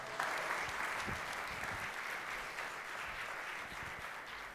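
Faint church audience applause greeting a pastor as he comes up to preach on a Sunday morning, a soft, even patter of many hands clapping steadily throughout.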